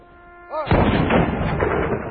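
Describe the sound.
A rifle volley fired by a squad at a memorial salute: a brief voice, then one loud, sharp blast that settles into a long, rumbling decay.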